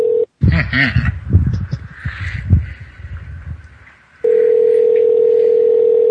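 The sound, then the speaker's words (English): A telephone line tone while placing a prank call: a steady, mid-pitched tone sounds briefly at the start, people talk over the middle, then the same tone returns and holds unbroken to the end. “Fuck it, we'll dial it.”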